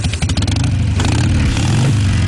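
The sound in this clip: A Harley-Davidson motorcycle engine revs with a loud, low, uneven pulsing rumble that holds steady throughout.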